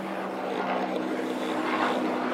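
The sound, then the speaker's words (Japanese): A helicopter approaches overhead, its rotor and engine making a steady, broad droning roar with a low hum beneath. The noise holds at an even, moderate level throughout, with no voices. “ちょっと待ってね、今ヘリコプターが来てるから”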